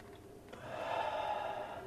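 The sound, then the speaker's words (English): A faint, drawn-out inhale as smoke is pulled from a crack pipe, a soft breathy hiss that swells in the middle and then tapers off. “Now he's holding a lighter up at a crack pipe and breathing in the smoke.”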